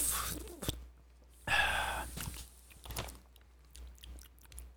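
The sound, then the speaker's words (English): A quick slurping sip of smooth coffee being tasted, set among faint mouth noises and soft clicks in a quiet space. “But yeah, this coffee, it is really good. It's good. It's smooth. It almost tastes a little sweet. Hold on, let me taste it one more time.”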